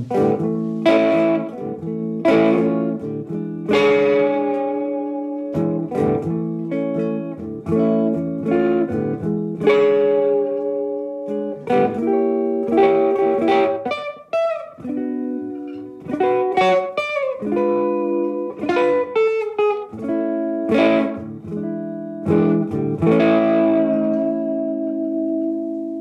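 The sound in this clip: Electric guitar, played through a tube amplifier, runs through melodic phrases of clear sustained notes and chords. The notes are bright and ringing with a touch of echo, and the guitar plays alone at a fairly strong level throughout.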